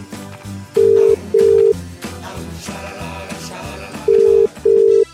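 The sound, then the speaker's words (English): Telephone keypad buttons are pressed to dial a number, giving four loud, steady touch-tone beeps in two pairs separated by a long pause, over background music. “Or I don't know if you dial up anymore, you just press buttons, don't you?”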